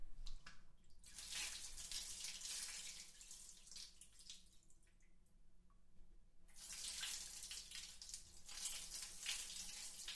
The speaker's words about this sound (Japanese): 泡を流しちゃいましょうね。